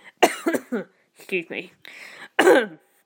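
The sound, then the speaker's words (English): A man coughs and clears his throat in a few short, harsh bursts separated by brief pauses, loud and close, with no talk in between. “excuse me, had a bit of a cough then.”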